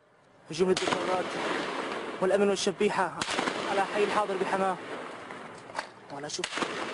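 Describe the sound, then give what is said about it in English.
Gunfire and tanks during a military incursion into a city to crush democratic protests. A few sharp bangs cut through a constant loud rumbling roar, with people's voices audible throughout. “We have here sound from an unverified footage of the tanks incursion and shooting.”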